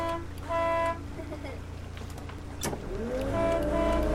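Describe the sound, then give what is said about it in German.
Boat engine chugging through the harbour at Chioggia, a low steady rumble that runs throughout, with two brief horn-like tones sounding over it. “Wir tuckern durch den Hafen von Chioggia.”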